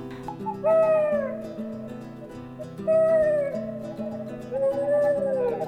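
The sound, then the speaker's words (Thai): Owl hooting, three drawn-out hoots spaced a couple of seconds apart, each curving gently in pitch and standing out over a steady, low background drone. “นกฮูกที่ยังสร้างไม่เสร็จสมบูรณ์นั้น ก็นั่งอยู่บนกิ่งไม้ใกล้ๆเขาก็พูดขึ้นมาว่า”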